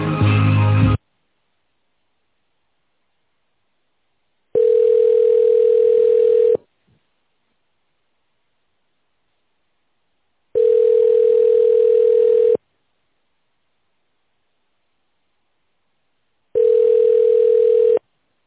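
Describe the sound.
Telephone tones play while a call is transferred: a clipped beep at the start, then three long, steady, mid-pitched tones of about two seconds each, evenly spaced by several seconds of silence.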